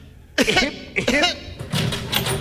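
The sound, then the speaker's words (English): Coughs during a medical examination: a few short, throaty, voiced coughs come in quick succession, fairly loud and with brief gaps between them. “Now cough. Again.”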